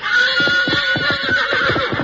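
A fiery three-year-old stallion whinnies loudly, a sustained high neigh with a rapid quavering pulse that runs for about two seconds without any other sound.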